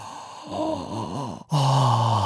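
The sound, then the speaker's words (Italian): Deep breaths through an open mouth, vocally demonstrated as a morning wellness routine: a few drawn-out, voiced sighing breaths, then a loud steady tone takes over. “Appena si sveglia al mattino fa 10 respironi così”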